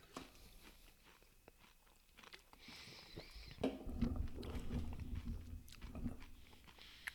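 Quiet, crunchy chewing of a Butterfinger chocolate bar: irregular bites and wet mastication clicks that grow louder and denser about halfway through.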